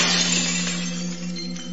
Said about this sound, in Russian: Зловеще зазвенели, зазвякали осколки. Они запрыгали по земле и стали склеиваться, превращаться обратно в стеклянного человека.